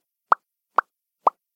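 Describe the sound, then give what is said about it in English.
Three crisp lip pops made with the mouth, short hollow plops spaced evenly apart and fairly soft, alone with no talk. “It was just me popping my lips.”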